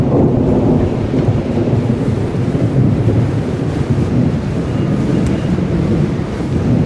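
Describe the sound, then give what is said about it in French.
A storm roars with howling wind, as if a hurricane were raging behind a window, in a dense, loud, continuous low rumble with gusting swells and no voices. “un vacarme retentit, comme si un ouragan se déchaînait derrière la fenêtre et qu'une multitude de vents hurlait en soufflant dans toutes les directions.”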